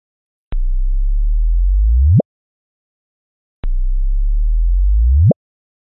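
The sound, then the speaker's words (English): Sonified gravitational-wave chirp from two black holes colliding, played twice: each time a low steady hum swells and then sweeps sharply upward in pitch to an abrupt cutoff, with a short silence between the two identical chirps. “What that is the sound of two black holes colliding.”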